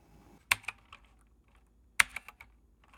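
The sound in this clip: Typing on a computer keyboard: two short bursts of crisp key clicks separated by a pause of more than a second. The clicks are fairly faint and play alone, with no talk.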